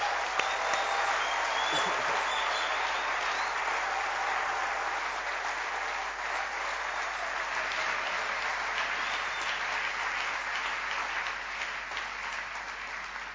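An audience applauds during a church service, acclaiming the scripture reading. Many hands clap in a sustained, dense patter that stays fairly steady for over ten seconds, easing slightly after the opening moments.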